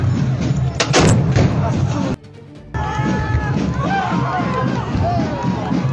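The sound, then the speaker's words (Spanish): A cannon firing a gunpowder charge during a festive dance procession where rifles also fire powder charges. A loud booming blast comes early, amid a noisy crowd of voices. “Vea cómo este joven ayuda a su compañero a mover el arma y se dispara justo en el momento cuando tiene la mano cubriendo el brocal.”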